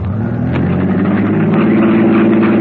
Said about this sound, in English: Well, maybe I can assist you. Start your motor.